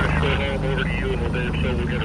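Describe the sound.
A helicopter hovers during a river rescue of a man who jumped into a raging river after his dog: a steady rotor chop and engine drone run throughout, with a voice talking over it.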